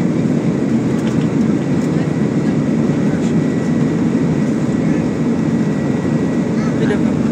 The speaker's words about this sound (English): It's so loud. So now we're zooming down the runway.